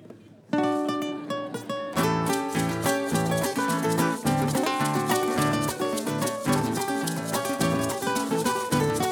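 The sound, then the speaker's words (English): Son music played on a solo guitar, a loud, rhythmic stream of plucked notes and chords that begins after a brief pause and keeps a lively, steady pulse. “Compadre, ellos quieren ver cómo es el sonido de son en la guitarra. Venga. Just a little piece, poquito.”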